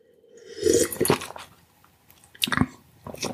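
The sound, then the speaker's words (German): A sip of wine being taken, with wet slurping and swallowing noises in a few short bursts separated by near silence. “Ich nehme gerade noch mal einen Schluck, weil der wirklich lecker ist.”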